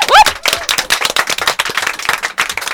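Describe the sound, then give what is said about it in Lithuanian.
Loud, energetic clapping from a group of young people at the close of a youth radio program, sharp uneven claps in a quick irregular burst, fairly loud and alone. “labai garsus plojimai jums!”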